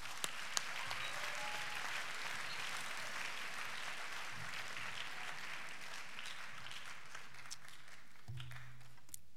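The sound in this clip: Audience applause fills Waco Hall at a Baylor chapel orientation as a speaker is welcomed, steady sustained clapping that stays fairly quiet and even throughout before a brief low thump near the end.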